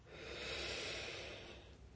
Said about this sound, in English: Softly inhale